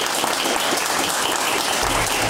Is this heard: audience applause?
yes